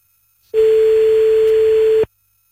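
A telephone ringback tone while a call waits to be answered: one steady, mid-pitched electronic beep lasting about one and a half seconds, alone, with silence before and after.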